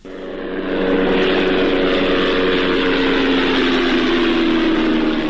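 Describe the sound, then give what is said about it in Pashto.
An unmanned drone aircraft flying overhead gives off a steady propeller drone. The hum swells in over the first second, then holds loud and even, with a faint downward drift in pitch later on. “دا هغه بي پيلوټ الوتکې ژغ دي”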